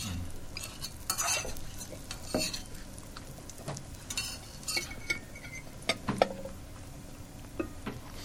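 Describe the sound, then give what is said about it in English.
Fake sausage frying in a pan and being stirred, with a utensil scraping and clinking against the pan over a faint steady sizzle. Several sharp clatters stand out at irregular moments. “Now, usually when I cook the sausage, I also put some sautés and onions with it as well. Mm-hmm. So it kind of helps with the taste. But this is just the pure sausage. The fake sausage.”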